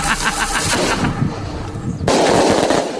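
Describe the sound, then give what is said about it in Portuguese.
A firework rocket is set off, producing loud, dense crackling and popping bursts over a harsh rushing hiss, with the noise growing even louder near the end. “Vamos pra soltar um foguete. Dar um foguete agora.”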